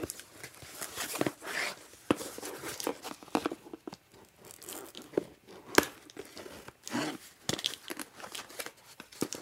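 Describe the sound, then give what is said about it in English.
Cardboard and paper ripping and crinkling as a square product box holding a device is torn open. Many irregular bursts of tearing and crumpling sound at a fairly faint level, with short pauses between them. “And it comes in a square box, if you want to know what the box looks like. And looks like, from the looks of it, after I tear it open, I'll just see the device.”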